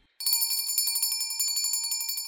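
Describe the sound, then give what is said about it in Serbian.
A school bell rings for the start of class, bursting in abruptly as a loud, rapid, high-pitched metallic trill that continues steadily for about two seconds without pause. “Zvonilo je za početak časa.”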